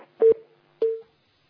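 Two short, steady beeps of a telephone line sound as an incoming call connects, each tone at an even pitch, separated by a brief gap and heard alone.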